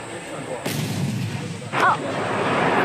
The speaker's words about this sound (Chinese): 这发打出去了，导弹呼啸而出，我还没有反应过来，已经命中了前方的靶区。